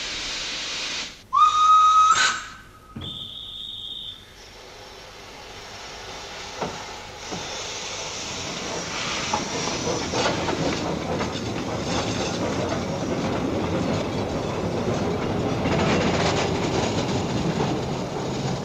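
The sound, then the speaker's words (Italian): A miniature steam locomotive pulling a green floral-style carriage on the Monte Generoso rack railway sets off with two shrill whistle blasts. A steady hiss and rhythmic chuffing then swell and continue. “Una locomotiva a vapore su scala ridotta, un vagone verde stile floreale. È un bellissimo spettacolo di un tempo che si avvia sempre più a farsi memoria. Si fa una gran nuvola bianca e il trenino va.”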